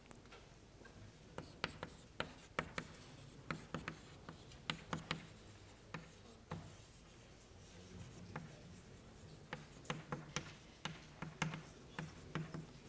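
Marker or chalk writes on a board during a math lecture, with many short scratchy strokes and taps in an irregular rhythm, fairly faint.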